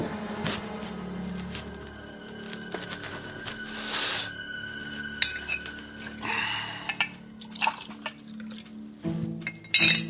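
Water is poured into a glass, with a short liquid burst near the middle and light clinks of glass and dishes scattered around it.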